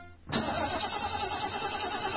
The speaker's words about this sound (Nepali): किन बन्द भएको गाडी? ब्याट्री फेरेको 10 दिन पनि भएको छैन, कति छिटो बिग्रिएको, बन्द भएको भइसक।